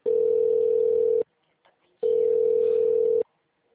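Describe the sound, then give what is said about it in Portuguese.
Telephone line tone during a call transfer: two long, steady, mid-pitched beeps of just over a second each, separated by a short pause. “Aguarde, estamos transferindo sua ligação.”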